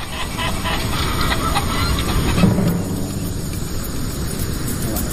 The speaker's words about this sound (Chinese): 每天早晨，他都要打开鸡舍大门，放他们去树林里觅食。